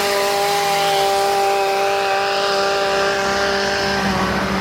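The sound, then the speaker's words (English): A hedge trimmer cutting a hedge outdoors, its motor holding a steady, loud buzzing drone at constant pitch and volume for the whole clip. “I'm just doing this as I'm walking to work and somebody's trimming a hedge.”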